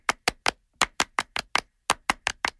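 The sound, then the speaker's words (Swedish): French-style rhythmic applause: about a dozen sharp, crisp hand claps in a steady, counted rhythm, grouped in short bursts with brief pauses between them, with no talk over them. “Och det är en fransk applåd. Un, deux, trois!”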